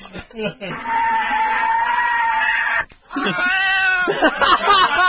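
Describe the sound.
Kittens meowing: a few short mews, then two long, wavering, harmonic yowls with a brief pause between them, loud and drawn out.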